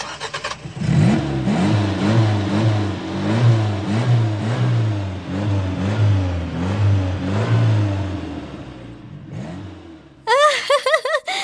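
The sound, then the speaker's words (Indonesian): Children's voices imitate a car engine starting, a rhythmic, sputtering, revving drone held for about nine seconds, followed by a brief, high-pitched vocal burst at the end. “Coba kalian tirukan suara mobil yang sedang dihidupkan.”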